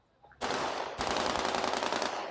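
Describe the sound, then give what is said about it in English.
Automatic guns fire in celebration in the central square of Qusair, Syria, as government troops mark a victory. The rapid fire is dense and continuous and grows louder after the first second; no car horns stand out. “the guns being fired in celebration. The cars blaring their horns as they clog the central square.”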